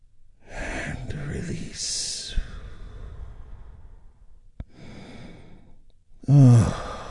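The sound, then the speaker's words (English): Deep, healing breath taken during a guided relaxation: a long, slow, airy breath, then a shorter one, ending in a brief voiced sigh. No words are spoken. “as we take a big, deep, healing breath right now”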